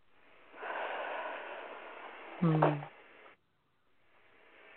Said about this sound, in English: Take a breath into your heart for me, will you?